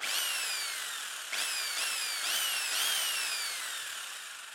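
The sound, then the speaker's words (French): An electric drill whines in several bursts. Each burst starts with a high, piercing motor tone that glides steadily downward, and the bursts overlap closely with no talk. “Vous cherchez, mettons, un son de perceuse?”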